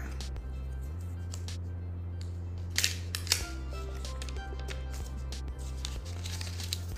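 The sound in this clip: Packaging rustles and crinkles as the box of an Apple MagSafe battery pack is opened. Faint handling noises are broken by a few sharper crinkling bursts over a steady low hum.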